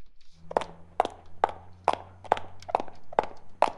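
Footsteps going down stairs: about eight heavy, evenly spaced steps in a steady rhythm over a low, constant hum.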